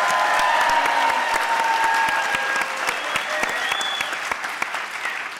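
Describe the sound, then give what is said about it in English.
Dense, loud applause from a live theater audience at the historic Bing Crosby Theater in downtown Spokane, at a 50th anniversary screening of Yellow Submarine; steady clapping continues throughout and eases slightly toward the end. “And that's why we're here tonight, at the historic Bing Crosby Theater in downtown Spokane, appearing before a live audience. That's your cue to make noise, folks.”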